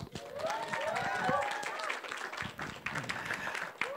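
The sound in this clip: Audience applause welcoming a speaker to a church stage, steady dense clapping from a crowd that holds loud for the whole stretch, with voices mixed into it.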